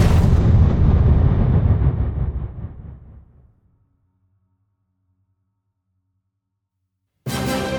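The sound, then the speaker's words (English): A ruby explodes in a single loud, deep boom. The blast rumbles and fades away over about three seconds into silence, and then a different sound starts abruptly at the very end. “Then, the ruby exploded in his face.”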